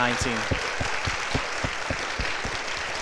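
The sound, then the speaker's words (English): Dense, steady applause from an audience at a school ceremony for a kindergarten class, sustained throughout with a voice over it. “let's go ahead and give a round of applause one more time for the kindergarten class of”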